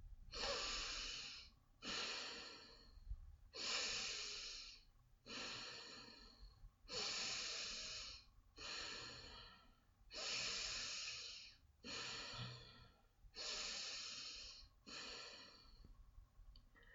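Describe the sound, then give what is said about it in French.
A guided breathing exercise of forceful breathing in and out through the nose while the chest lifts: a regular series of long, loud, rushing breaths, each followed by a short pause. “Donc inspirez et expirez par le nez régulièrement avec puissance en soulevant votre cage thoracique, comme ceci.”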